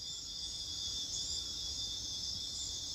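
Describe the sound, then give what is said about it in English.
Cicadas singing in the jungle produce a continuous shrill, high-pitched buzzing drone that holds steady throughout without breaks, fairly faint overall with a low rumble beneath. “It's amazing how loud the jungle is. The cicadas are filling the air with song.”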